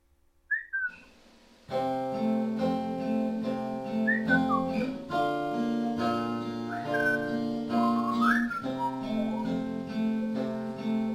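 Whistled melody in a song: bright, gliding whistle notes ride over steady sustained instrumental chords, with a brief whistle alone at the start before the full music comes in.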